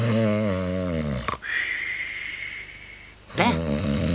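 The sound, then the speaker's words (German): Human snoring: a deep, rasping, rattling snore, then a long airy breath carrying a thin whistle, then another rasping snore beginning, loud and alone without talk. “Hör endlich zu schnarchen auf, ich schnarche nie, nie.”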